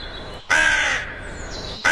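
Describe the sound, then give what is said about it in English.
A person's voice imitates a crow's caw on live TV: a loud, harsh, drawn-out nasal caw that trails off slowly, followed by the abrupt start of another caw at the end. “the late Graham Kennedy got suspended for 2 weeks for impersonating a crow on live TV. He did. It didn't quite sound like this, did it?”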